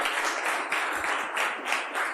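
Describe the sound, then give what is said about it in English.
An audience gives a round of applause for supporting organizations at a technology community event: dense, continuous clapping from many hands, holding a steady moderate level throughout with slight swells. “So we just give a huge round of applause to all these great organizations that helped us out.”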